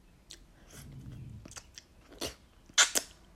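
Faint wet licking and mouth smacking as someone laps up a clear, salty fluid. A few irregular soft slurps give way to a couple of sharper, louder smacks near the end, with no talk.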